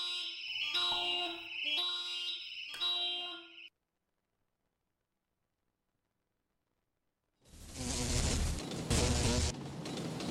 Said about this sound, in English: And that's the secondary alarm system.